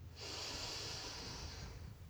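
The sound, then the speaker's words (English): A single long, deep breath drawn in as part of a guided meditation: a steady, airy hiss that holds at an even loudness for nearly two seconds, alone with no talk. “So we'll start by taking three deep breaths.”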